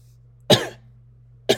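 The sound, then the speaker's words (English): A person coughing: two sharp, brief coughs about a second apart over a low, steady hum. “Sorry, I got a cough”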